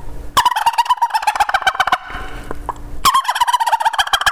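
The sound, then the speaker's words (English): Turkey gobbles made by a hunter on a tube call, used to locate a gobbler. Two fast, rattling gobble bursts separated by a short pause, loud and clear with no talk over them. “then I give a couple gobbles and see how he reacts.”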